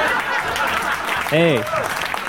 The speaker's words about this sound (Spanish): Aplausos enlatados.